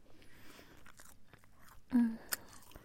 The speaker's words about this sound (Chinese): 弟弟嘴里的牛肉干味道好好，